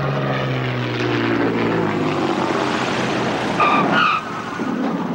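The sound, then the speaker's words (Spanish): Passenger airplane landing at an airport: a loud, continuous engine roar throughout, with a brief high screech near the end. “El avión de pasajeros aterriza en el aeropuerto de Borduria.”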